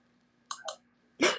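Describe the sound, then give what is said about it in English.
Quiet clicking while answering a quiz: two soft clicks close together, followed after a short pause by a louder, broader noisy burst. “I love how we just click quietly and not say the answer.”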